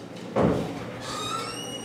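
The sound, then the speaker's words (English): A door bumps once as a woman walks out of a room in a prenatal clinic: a single short, dull knock, then a faint steady background hum with thin high tones. “barely musters a goodbye as she walks out the door”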